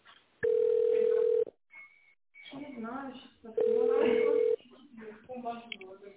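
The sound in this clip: Ringing tone of a telephone call being connected: two long, steady, mid-pitched tones separated by a gap of a couple of seconds, with a muffled voice between them.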